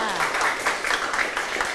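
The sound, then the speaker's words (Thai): Children in a classroom applaud a classmate who answered correctly. Their quick, fairly rhythmic clapping keeps a steady, even pulse through the brief burst. “เก่งมากค่ะปรบมือให้เพื่อนค่ะ”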